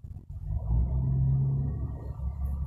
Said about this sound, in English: So that is 18-wheeler trucks you hear.